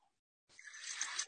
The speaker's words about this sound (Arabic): هذه صوت موية.